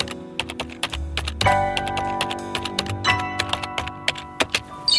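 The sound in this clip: Fingers typing on a computer keyboard, an irregular run of clicking keystrokes with steady music playing underneath.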